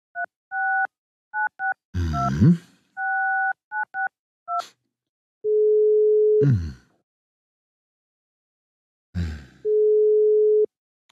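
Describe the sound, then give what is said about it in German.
A telephone is dialed at night with a quick series of short touch-tone beeps. Two long, steady ringback tones of the outgoing call follow, with brief rustling noises between them. “den rufe ich an, genau. Der wird rangehen.”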